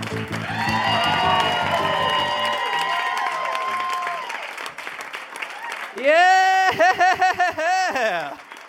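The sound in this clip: A live comedy festival crowd in Melbourne cheers and claps for performers coming on stage. A steady wash of applause runs under a sustained musical tone, then loud, drawn-out shouted whoops fill the last few seconds.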